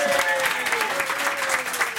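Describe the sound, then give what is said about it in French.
Studio audience applause fills the space, a dense, even wash of clapping at moderate loudness that holds steady throughout, with faint voices mixed in. “Un tonnerre d'applaudissements”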